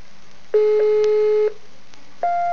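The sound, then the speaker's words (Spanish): Telephone tones for a call that cannot get through because the line is not open: a steady, low electronic tone that holds for about a second, then a higher steady tone after a short pause. “Vaya, es una lástima, pero ahora no está la línea abierta. Marca de nuevo y seguro que te conectas.”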